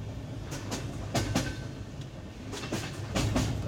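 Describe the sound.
Train wheels clack over rail joints as a train pulls away again in Bulgaria after an hour-long stop at Kostenet. Paired clickety-clacks repeat over a low, steady rumble, fairly faint throughout.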